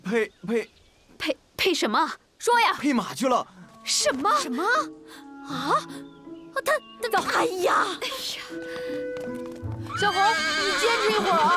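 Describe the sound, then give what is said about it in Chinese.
Neighing and whinnying from a horse, a mare being mated with a black stallion, comes in loud, high, repeated calls with hoof clip-clop and people talking and shouting throughout. “我这小红呀，要是跟那黑驹配了种，肯定能生出特别好的小马驹儿。”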